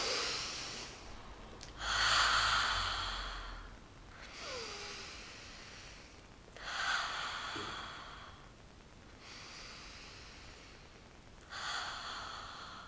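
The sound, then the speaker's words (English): Deep breathing during a guided calming exercise with palms turned up: a few slow, soft inhales and sighing exhales, each rushing breath separated by quiet pauses, faint and without talk. “we're going to put our palms up into receiving mode and we're going to take one deep breath.”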